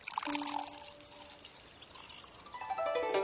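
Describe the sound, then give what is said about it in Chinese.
Water pours and gurgles as a gourd is filled from a pond. The splashing trickle is steady and moderately loud. “去外面的水池把葫芦里装满了水”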